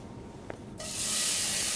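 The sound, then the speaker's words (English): Bacon sizzling as it starts to cook down in a pan for baked beans: a bright, steady hiss bursts in suddenly after a quiet moment and holds loud and even to the end. “Then I have bacon and onion that I'm gonna cook down. Let me start doing that as we speak.”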